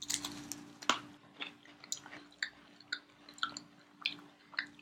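Someone bites into an Oreo cookie with extra-thick cream and chews it. A crisp bite is followed by many faint, rhythmic chewing crunches, heard alone.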